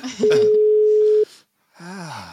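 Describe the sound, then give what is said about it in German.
A telephone rings unanswered: one long, steady, mid-pitched ringback tone lasts about a second, then a short silence. People talk over the tone's start and again after the pause. “euer Joker geht nicht ans Telefon.”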